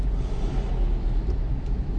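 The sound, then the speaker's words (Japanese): Steady low rumble of engine and road noise in a shared car stuck in a traffic jam beneath the Tokyo Metropolitan Expressway, a loud unbroken drone with no talk. “上の首都高速も渋滞してるし”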